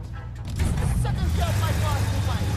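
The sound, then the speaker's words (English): A taxi drives off, its engine noise swelling after a quiet start and then holding as a loud, continuous rumble. “The taxi drives off with Frank behind the wheel.”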